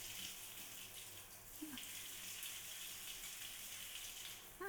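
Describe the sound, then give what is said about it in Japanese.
Warm water running from a tap makes a faint, steady hiss and patter that continues unbroken, with a couple of small splashy clicks. “あったかいの出てきたっす。じゃあ流しますよ。”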